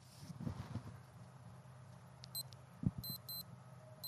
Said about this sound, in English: Alarm clock? That's the alarm clock. That wouldn't wake up a fucking fly. Beep, beep.